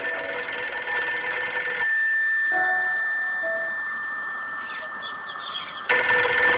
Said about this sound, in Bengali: কে যে ল্যান্ডফোনে ফোন দিচ্ছে তখন থেকে?